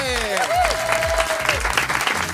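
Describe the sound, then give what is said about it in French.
Audience applause for two comedians on a French radio show: dense, steady clapping that fills the whole clip, with a melodic tone gliding over it. “On peut les applaudir.”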